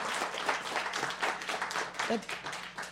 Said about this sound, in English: Congressman Cummins to Congress, because give him a round of applause